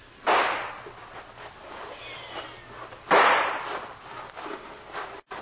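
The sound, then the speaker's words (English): Two loud, sharp gunshots fired quickly as a signal to charge, about three seconds apart, each with a broad crackling burst that fades into a rumbling tail. No voices are heard. “You signal a charge. Two fast shots and we all go.”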